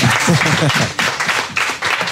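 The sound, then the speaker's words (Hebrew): Applause at a Hebrew-language gathering congratulating a soldier on an honour: bursts of clapping that surge and dip in loudness, with talk mixed in. “יו, מזל טוב. עוד כפיים, עוד כפיים.”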